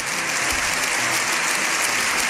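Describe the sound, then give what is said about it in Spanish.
Dense, steady applause fills a parliament chamber, with many hands clapping at an even, unbroken level from start to finish and no voices standing out. “7 minutos aplaudiendo.”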